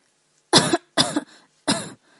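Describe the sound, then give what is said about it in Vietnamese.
Dry coughing from a starved man who has just been force-fed a mouthful of medicine and hot broth: three harsh bursts with short gaps, the second with a small catch at its end, each heard alone. “Mặc Nhiên không ngừng ho khan”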